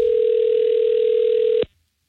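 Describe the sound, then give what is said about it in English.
A telephone line tone before the call is forwarded to voicemail: one steady, clear, single-pitched tone holds for about one and a half seconds, then cuts off abruptly into silence. “The phone was ringing and they forwarded us.”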